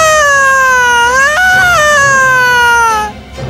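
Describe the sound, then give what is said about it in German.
A loud, sustained scream rings out as a prince touches the surface of water in a bowl. It is a single high, wavering cry lasting about three seconds, with a sudden jump up in pitch midway, and then it breaks off. “Er legte seine Hand auf die Wasseroberfläche und sofort ertönte ein lautes Schreien in seinen Ohren.”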